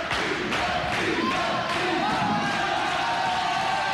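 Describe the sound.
An audience cheers and shouts in a steady, noisy roar, with a few sharp claps or thumps cutting through, fairly faint overall.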